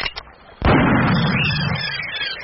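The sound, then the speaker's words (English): A single sharp gunshot, fired on an island at a large bird perched nearby, bursts out loudly and rolls into a long, rumbling tail that slowly fades. A few faint pops come just before it. “I do believe it is the first gun fired on this island since the creation of the world.”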